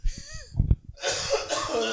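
Coughing from a tickle in the throat of a man with bronchitis: two short, harsh bursts, followed by a longer stretch of rough, breathy throat noise.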